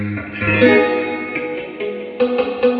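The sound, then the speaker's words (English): Electric guitar run through a Harvard reverb stacked with a Deluxe reverb, giving a wet, drippy wash with extra treble. Sustained, ringing chords and picked notes blur together, with a brighter new chord entering near the end. “Because I'm adding in that Harvard reverb with it. So it's got Harvard reverb plus the deluxe reverb. That Harvard reverb gives that drip and that extra highs,”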